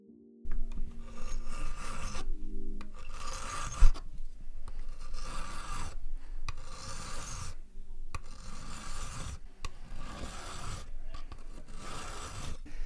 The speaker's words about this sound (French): Alors j'employais une lime. La lime va servir à nettoyer et à enlever les, traces de boc-fil, les petits coups qui sont euh, pas tout à fait régulés sur la plaque de métal